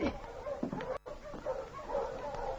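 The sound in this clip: A dog barks and yips in a few short bursts. The sound is faint against a murky, noisy background.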